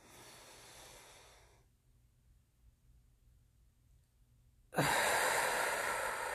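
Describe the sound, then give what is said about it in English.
Slow breathing during a 4-7-8 breathing exercise: a soft breath fades out, a long near-silent hold follows, then a loud, forceful breath begins and carries to the end. “Here we go. 4, 7, 8 breaths. Just getting me aligned.”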